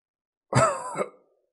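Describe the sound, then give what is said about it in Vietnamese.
An old man's harsh, violent cough: one heavy rasping burst followed by a weaker second hack, loud and on its own. “Bóng dáng xa xa kia truyền đến tiếng ho khan già nua mà dữ dội, dường như trái tim đều sắp phun ra.”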